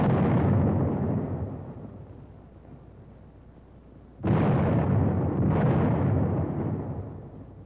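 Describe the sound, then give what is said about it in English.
Heavy booms from a squad firing a 37-millimeter anti-tank gun: a few loud, broad blasts, each followed by a long rumbling decay, with no voices. “A squad firing the 37-millimeter anti-tank gun.”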